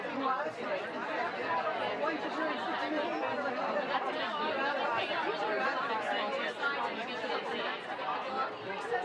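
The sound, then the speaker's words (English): Dense, continuous chatter of many people on an MBTA train headed into Boston on a Saturday morning, with overlapping excited voices blending into a steady crowd murmur without pause. “That chatter you hear in the background is the excited discussions of people on an MBTA train at 8:30 Saturday morning headed into Boston”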